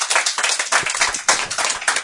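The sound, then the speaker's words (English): Audience clapping to vote during a quiz game, sharp uneven hand claps in many quick bursts with a ragged, scattered rhythm and no talk. “Clap if you think that one is the fiction.”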